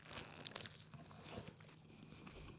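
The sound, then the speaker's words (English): Crunchy biting into a Belief plant-based burger topped with plant-based bacon: a faint, crisp crackle and a few soft chewing crunches, with no talk. “So I'm about to eat some Belief burgers. Yep. We'll see how this tastes.”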